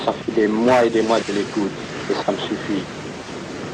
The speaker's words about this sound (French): Vous entendez, c'est le bruit de la mer.